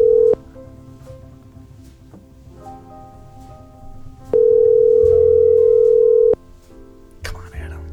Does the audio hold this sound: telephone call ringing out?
yes

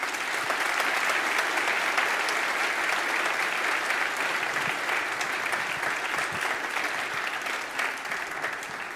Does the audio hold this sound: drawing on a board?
no

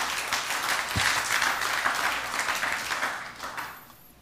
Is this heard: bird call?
no

